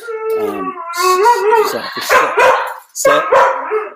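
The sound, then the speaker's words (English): A dog howls and barks in a run of loud, wavering yelps and drawn-out howls, breaking off briefly before a final burst. “Does your dog want to be on the podcast?”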